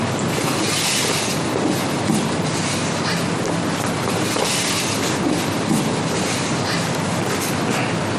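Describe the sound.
A train runs on rails with a steady, dense rumbling roar that holds an even loudness for the whole stretch, with no voices.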